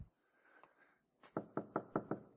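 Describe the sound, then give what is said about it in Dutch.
Five firm knocks on a door in a quick, even rhythm, loud and clear on their own after a brief faint, murky stretch. “En ik klop.”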